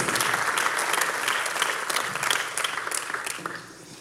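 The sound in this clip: Audience applause welcomes a woman onto a stage: dense, steady clapping from many hands that holds at an even level and tapers off at the end.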